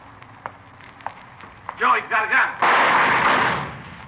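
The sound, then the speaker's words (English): Gunfire in a radio drama: a few faint sharp taps lead into a brief spoken exclamation, then a loud blast with a noisy, lingering tail that slowly fades. “Joe, he's got a gun. Joe, you all right? Yeah, thanks to this mailbox. I saw him pull a gun, thought sure he got you. Well, he didn't miss by much.”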